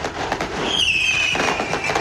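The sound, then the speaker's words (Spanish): Fireworks are set off by several people: dense crackling and popping bursts with a high whistling streak through the middle. “uno logra ver que no es solo una persona que está lanzando fuegos artificiales. O sea, son varias.”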